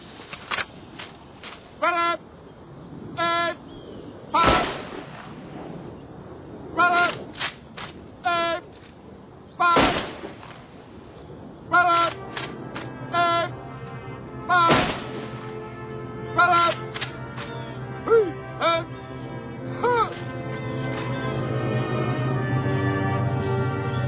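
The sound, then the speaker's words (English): Rifle volleys fired by a firing party at a military honors ceremony: three sharp, loud cracks about five seconds apart, with spoken commands between them. “Fire party. Fire three volleys.”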